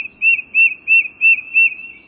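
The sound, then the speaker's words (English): A tufted titmouse sings its rhythmic whistled song, typical of eastern U.S. woodlands: five clear, high whistled notes repeated at an even pace, alone against near silence. “This rhythmic whistled song is a quintessential sound of woodlands in the eastern U.S. But few birds are more ready to visit your backyard than its singer, the tufted titmouse.”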